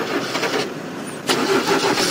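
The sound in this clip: A car engine cranks but fails to start, giving a steady grinding, whirring churn that runs through the whole clip at a fairly even level without catching.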